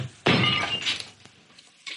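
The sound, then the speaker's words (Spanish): An African statuette drops and breaks in one loud, sharp crash with scattering bright fragments. A brief quieter clink comes near the end. “Luego va al cuarto de Roland y coge la estatuilla africana, pero se le cae y se rompe.”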